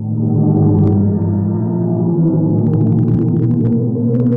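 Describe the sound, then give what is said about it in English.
Sound waves from the black hole at the center of the Perseus galaxy cluster, converted to audio. A low, layered droning hum holds steady, with faint crackling flickers rising above it in places. “And this is the sound of a black hole.”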